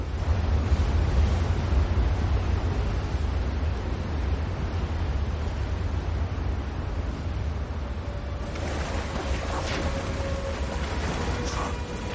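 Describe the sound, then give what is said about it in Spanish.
Steady broad rush of river water flowing calmly where it widens after rapids. The continuous, even wash turns brighter and slightly busier toward the end. “Tras los rápidos, el río se ensancha y sus aguas se calman.”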